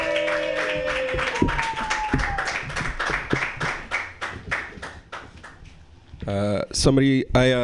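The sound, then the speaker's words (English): An audience applauds a comedian at a comedy show with dense, steady clapping that gradually thins out. A voice starts speaking near the end. “Put your hands together for Murat Chaki.”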